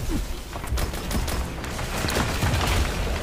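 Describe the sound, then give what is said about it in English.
Gunfire in the video game Destiny 2, shotgun blasts among it, crackles as many sharp shots over a dense, constant bed of game noise and rumble, with no clear gaps. “Shotgun straight in the face.”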